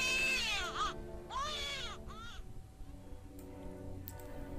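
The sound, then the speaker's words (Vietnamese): A newborn baby cries out from an operating room at night, in a few high, wavering wails that come in short bursts before fading to quieter whimpers. “cái tiếng trẻ con khóc nó vang lên trong đêm này nghe thật là ấm lòng. Tiếng trẻ con nỉ non từ phòng phẫu thuật truyền đến là đầu thai.”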